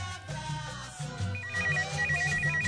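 Ringback tone of an outgoing telephone call waiting to be answered: two pulsing, warbling bursts of a steady electronic tone, each about half a second long, sounding over continuous background music.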